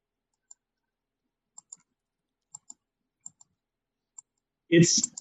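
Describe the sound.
Computer mouse clicks: eight sharp, faint clicks spaced across a quiet stretch, several of them in quick pairs. A voice starts speaking right at the end.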